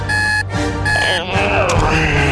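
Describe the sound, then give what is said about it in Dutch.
An alarm clock rings in two bursts of bright, steady electronic tone separated by short gaps, loud throughout with other sound mixed in beneath. “wekker gaat. En gaat.”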